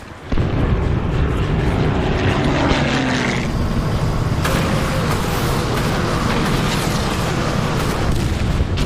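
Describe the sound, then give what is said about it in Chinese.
Spitfire fighter aircraft flying over a beach landing under German gunfire produce a loud, continuous roaring drone with a shifting tone and heavy low rumble throughout, with no voices. “由荷兰人、挪威人、丹麦人、波兰人、南斯拉夫人组成的突击部队，也在英国皇家空军喷火式战斗机的掩护下，顶着德军炮火抢滩登陆。”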